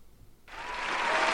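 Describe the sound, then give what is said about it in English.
Applause sound effect that bursts in suddenly after a brief quiet moment, then continues as steady, dense clapping. “Okay, I can hear it. Thank you. The applause.”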